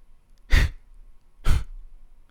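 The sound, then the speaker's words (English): A person gives two short, breathy groans about a second apart, each a quick, loud exhale that fades fast, with faint breathing between them. “All right, one more groan for you, kid. One more, and that's all you're getting out of me.”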